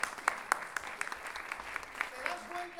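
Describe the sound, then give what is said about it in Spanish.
Applause from an audience at an improvised-verse masterclass: dense, steady clapping throughout, with sharper individual claps standing out and faint voices underneath. “Aplausos para Alex.”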